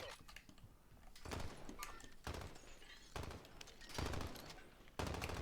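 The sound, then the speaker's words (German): Video game gunfire coming from above arrives in a few short bursts of rapid shots, each separated by brief gaps and fairly faint overall. “Ja, die schießen von oben, ich seh den von oben.”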